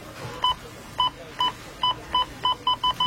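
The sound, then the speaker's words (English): Checkout scanner beeps at a store till during a big sale week: nine short, mid-high electronic bleeps, spaced apart at first and coming faster toward the end, over faint background hiss. “It's Rona week when the checkout sounds like this.”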